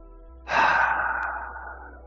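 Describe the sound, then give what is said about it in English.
One deep, audible breath during a guided relaxation breathing exercise. After a short quiet pause, a breathy rush starts abruptly, then slowly fades while staying soft and airy. “Exhale fear. Breathe in love. Breathe in gentleness. Exhale nervousness.”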